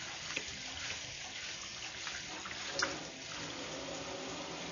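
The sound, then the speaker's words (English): Water runs from a tap as a dish left to soak overnight, still smelling of pesto, is washed and scrubbed. The flow is a faint, steady hiss, with a couple of soft knocks. “Okay, so this dish is actually partially cleaned because I left it to soak overnight. So this hopefully won't take too long, but it looks like it requires some scrubbing.”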